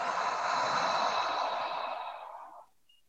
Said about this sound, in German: Und dann atme einmal tief ein, vollständig durch den Mund wieder aus.